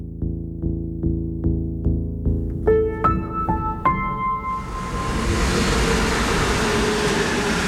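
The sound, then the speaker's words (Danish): A train at Valby railway station: a run of about eight evenly spaced low tonal pulses, then a few bright chime-like tones, giving way to a loud, sustained broad rushing rumble. “Vi er på Valby station kl. 8.30.”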